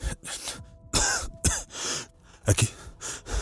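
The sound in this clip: Harsh, uneven coughing from someone gathering their clothes and getting up: several rough bursts of varying loudness, with a quick double cough near the end.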